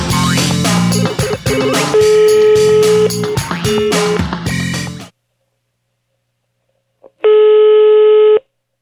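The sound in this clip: A telephone tone from a phone being dialed for a prank call: one steady, buzzy electronic tone held about a second, loud and alone, after music cuts off and a stretch of silence.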